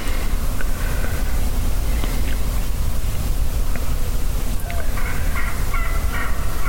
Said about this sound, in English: that gobbler that's right out in front of me has pitched down